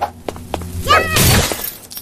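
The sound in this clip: A red lamp smashed during combat in a video game gives a sharp crash of shattering and breaking, preceded by a few short knocks, then a brief noisy tail.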